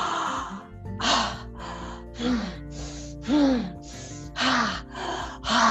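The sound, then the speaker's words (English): Forceful breaths from a breathing technique used during a workout come as a rhythmic series of about ten loud, airy gasps in steady succession. “That would look like I'm going to fill my lungs with air.”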